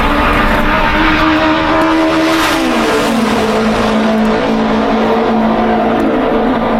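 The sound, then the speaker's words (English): A race car, apparently a Novi, lapping a track: a loud, continuous engine drone that drops in pitch partway through, then holds steady. “got into that race car, and my third or fourth lap around the track, was fast enough to qualify. There he is on the turn, on the straightaway. Let's wait and watch.”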